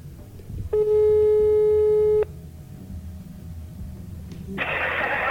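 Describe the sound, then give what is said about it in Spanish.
Ringback tone on an outgoing prank phone call: one steady mid-pitched ring lasts about a second and a half, followed by a quiet line and then a burst of hissy line noise near the end. “A ver si conseguimos que nos coja el teléfono.”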